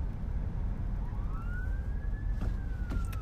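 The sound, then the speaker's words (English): An emergency vehicle siren wails from the far side of a six-lane road, across the median. One slow, rising wail levels off and holds high, heard faintly above a heavy, steady rumble of passing traffic. “If there's an emergency vehicle on the other side of the road coming at you on a 6-lane road,”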